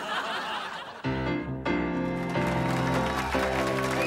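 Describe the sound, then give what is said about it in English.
A short newspaper-themed music jingle plays as a break in a children's quiz show about Ida B. Wells and Joan of Arc. It opens with a brief noisy burst, then loud sustained harmonic chords and notes that shift a few times. “please play us some newspaper music if you could. Black and white and red all over.”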